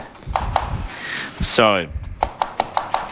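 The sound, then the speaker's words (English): A knife finely chops shallots on a board in crisp, rhythmic taps. A few strokes come first, then a stretch of talking, then a steady run of quick chops. “So we want to finely chop some shallots, and then we're just going to saute those right in a little bit of butter.”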